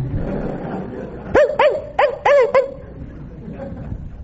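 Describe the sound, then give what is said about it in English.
A voice imitates small dogs barking: a quick run of short, high, thin yips bunched close together, with low background murmur before and after. “they'd come out and bark at me. They wouldn't even give a good bark.”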